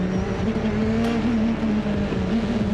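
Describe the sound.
Engine roar of a turbocharged car on ultra-soft tyres accelerating hard, a loud, steady drone that holds a constant pitch throughout with no pauses.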